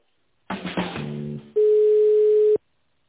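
Telephone line sounds while a call is being transferred: a brief burst of mixed tones, then one steady, unbroken tone held for about a second before it stops into silence.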